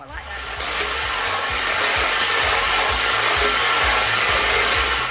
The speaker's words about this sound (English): Let me put the bowls in. Are you ready for us to spin them? They're in. Sure is. Let's spin.